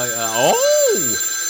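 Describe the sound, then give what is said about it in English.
A telephone rings with one warbling electronic tone that swoops up and then back down in pitch over a thin, steady high whine. “don't answer that. That's that death phone.”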